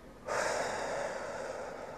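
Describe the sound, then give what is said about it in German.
A deep breath: one long, airy rush of breath that begins abruptly and carries on for almost two seconds, soft and gradually easing off. “Dann nimmst noch einen Atemzug”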